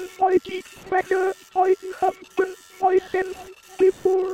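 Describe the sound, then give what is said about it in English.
Prayer-printing machines speaking as they print, with toneless, metallic machine voices repeating short syllables over and over in a steady rhythmic pattern. “The machines talk as they print out their prayers. If you like, you can go inside and listen to them.”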